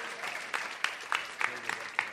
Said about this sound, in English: Can you applaud? Would you applaud for yourselves?